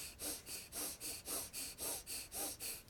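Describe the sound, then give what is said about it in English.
Breath of fire, rapid yogic breathing with the belly pumping: quick, forceful, evenly spaced breaths follow one another in a tight, regular rhythm, each a short airy puff, with no talking. “Breath of fire gives you all the energy you need anytime. Inhale completely, exhale completely. Inhale, press the belly out, push the belly out, exhale, pull the belly in.”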